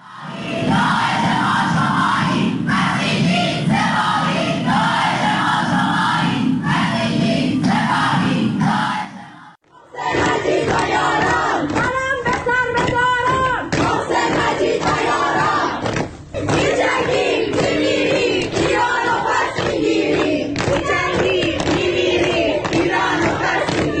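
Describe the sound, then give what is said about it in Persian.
Students chant in protest at the art faculty of Soore University in Tehran: a loud crowd of voices calls out in rhythmic unison, drops out briefly near the middle, then bursts back into energetic, ragged chanting and yelling. “و این بخشی از اعتراضات دانشجویی در دانشکده هنر دانشگاه سوره تهران.”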